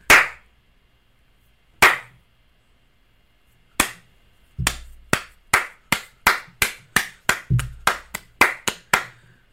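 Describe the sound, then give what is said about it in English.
A few isolated, sharp claps ring out with long gaps between them, then a quick, steady run of many loud booty slaps follows, each crisp hit fading fast. “one clap with a bunch of booty slaps.”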